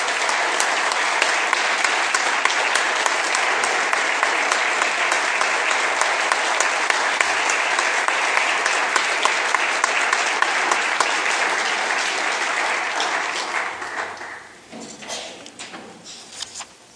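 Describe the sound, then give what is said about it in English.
Steady applause in a legislative chamber welcoming homeschool students from Hamlin County seated in the gallery, dense and even for about fourteen seconds before thinning out and fading. “Let's give them a big hand and welcome them here.”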